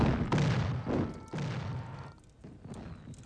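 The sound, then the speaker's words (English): Bombs explode on a television broadcast of an aerial view: a few heavy, rumbling booms land in quick succession, then a lower, softer rumble trails off toward the end. “They turn back to the TV to an aerial view of bombs exploding below.”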